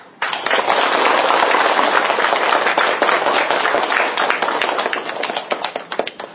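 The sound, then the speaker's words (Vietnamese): An audience applauds to welcome a Buddhist monk at a gathering. The clapping is dense and sustained for several seconds, then thins into scattered claps toward the end. “Xin quý vị Phật tử cho một tràng pháo tay thật lớn để đón chào đại đức.”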